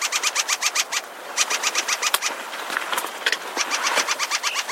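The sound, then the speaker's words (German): Ring ouzel alarm call: rapid runs of hard, dry clicking chacks repeated in quick bursts, fairly loud over a steady hiss, with short pauses between the runs. “denn das ist ein Warnruf. Alarm Call, der Ringdrossel, unserem Vogel der Woche.”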